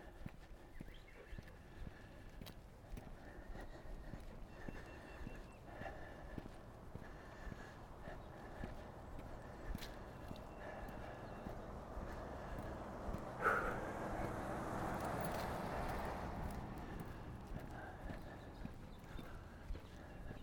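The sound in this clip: Footsteps of someone walking back uphill on a neighborhood walk on the first day of spring: faint, steady, repeated steps under a constant rushing background noise.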